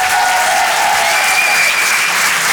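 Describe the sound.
Applause from a comedy club audience at Le Rire et Chanson Comedy Club for a comedian leaving the stage: a dense, steady wash of many hands clapping that holds evenly throughout.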